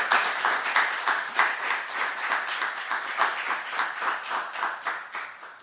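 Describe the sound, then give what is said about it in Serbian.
Applause from a festival audience welcoming a poet: steady, lively clapping that swells in gentle pulses and carries on alone for several seconds without any talk. “Pozdravite, molim vas, velikim aplauzom Sanjina Lazića.”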